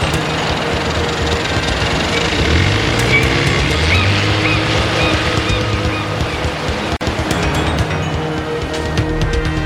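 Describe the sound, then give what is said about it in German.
A motorboat speeds out to sea, its engine droning loud and steady through the whole stretch with rushing water noise around it and a brief dip near the end. “Der seltsame Sam jagte mit dem Motorboot in die See hinaus”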